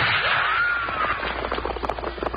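A gunshot in a western drama: a loud opening blast gives way to a whining tone that arcs up and then falls away, followed by a run of short, crackling bursts.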